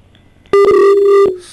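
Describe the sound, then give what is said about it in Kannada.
After a dropped call on a farm-advice phone-in, a telephone line tone sounds as a single loud, steady buzzing beep that holds for under a second and then cuts off. “ದೂರವಾಣಿ ಸಂಪರ್ಕದಲ್ಲಿ ಕಡಿತ ಉಂಟಾಗಿದೆ.”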